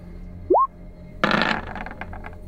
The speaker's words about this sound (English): It was a good dagger fling.